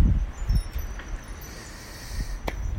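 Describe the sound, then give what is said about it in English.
Wind blowing outdoors with rustling leaves, a steady soft airy noise with low buffeting gusts near the start and a few faint ticks and rustles scattered throughout. “If I had to go to full details explaining the tranquilityness of the wind and everything, my apologies. Just want you guys to hear the background sounds of it.”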